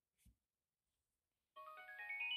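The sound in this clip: A Bluetooth device's pairing chime as it connects to an iPhone: a bright electronic melody of stepped tones climbing upward, sounding alone after a brief low thump.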